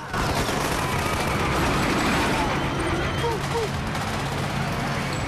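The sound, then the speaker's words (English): Soldiers fire freely into a crowd at a hotel, making a dense, continuous wash of gunfire and noise with voices mixed in throughout. “At the diplomat hotel, soldiers are firing freely into a crowd.”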